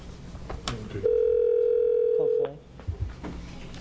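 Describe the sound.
Telephone dial tone: a steady, clean tone holds for about a second and a half, framed by clicks, handling noises and brief warbling phone tones before and after.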